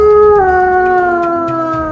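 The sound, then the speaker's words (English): A wolf howls from a high rock in the jungle: one long, loud, sustained tonal cry that steps slightly lower in pitch early on, then holds steady and fades a little at the end, with no talk. “A wolf stands on a high rock.”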